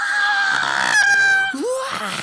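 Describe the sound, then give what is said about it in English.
A voice imitates a scream hurled at a villain held up against a wall: a strained, high, sustained cry lasting about a second and a half, then a short rising vocal squeal. “But she walks towards One, Vecna, Henry, the orderly on the wall, who is being held up by her powers, and screams at him and goes,”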